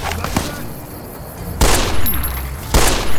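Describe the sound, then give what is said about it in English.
Gunshots from a video game shooter: two loud, sharp blasts about a second apart, with a fainter pop just before them. “All right, I'm just gonna shoot him in the head.”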